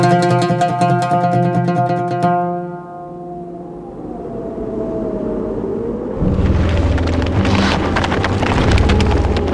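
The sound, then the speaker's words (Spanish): A cold north wind blows down from the icy, snowy mountain peaks. A rushing, roaring gust rises after a fading musical passage and grows stronger toward the end. “Arrecia la brisa del norte, que sopla desde las cumbres heladas de la sierra.”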